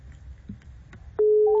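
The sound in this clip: A telephone call tone while redialing a call that keeps dropping. Faint, quiet handling noise leads into a loud, steady electronic tone that starts abruptly and holds to the end.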